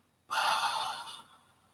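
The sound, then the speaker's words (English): A person imitates a dying person's last breath with one long, breathy exhale that starts abruptly, holds briefly, then fades away. “Harry Potter or the movie Ghost, or we've seen a movie that when someone takes their last breath, they go,”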